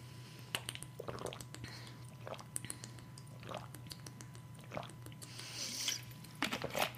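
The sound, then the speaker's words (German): Someone takes a sip of a drink, with faint wet slurping, squishing and swallowing noises and a few sharp mouth clicks scattered between quieter moments. “Ich muss mal kurz einen Schluck trinken.”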